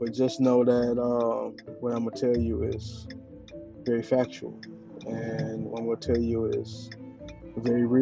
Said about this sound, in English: I am driving right now, so you may hear a little of the blinker in the background.